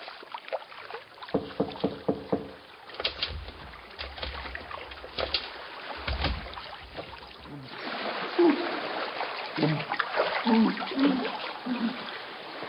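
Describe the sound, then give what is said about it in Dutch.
Bubbling, gurgling water rises from a cellar as a string of irregular low blips of moderate loudness, growing busier and more sloshing in the second half. “Ik hoor een borrelend geluid uit de kelder komen.”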